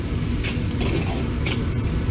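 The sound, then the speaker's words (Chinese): Chopped garlic sizzles as it stir-fries with chili pieces and red Sichuan peppercorns in hot rapeseed oil, a loud, steady crackling sizzle with stirring scrapes running throughout and no talk. “辣椒爆香之后加入剁好的大蒜爆香，”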